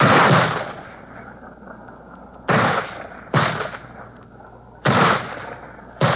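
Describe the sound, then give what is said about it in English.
Mortar shells are fired in combat as a series of heavy, booming blasts at irregular intervals. Each sharp loud thump is followed by a rumbling decay before the next. “And behind them, the men with mortars, lobbing in their shells.”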